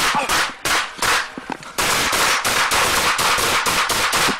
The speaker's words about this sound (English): There he was shot by police who said they thought he was armed, as you can hear in this disturbing body cam footage.